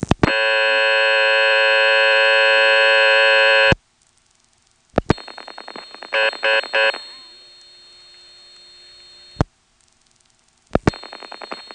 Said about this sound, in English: So when we dial 511 from here, the director dials 6 for tandem and then 15 to get the dial speed test.